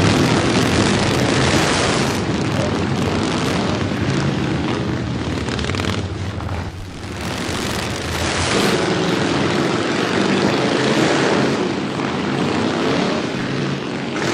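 Loud noisy motorbikes pass in a continuous dense engine roar. The din dips briefly midway, then swells back up.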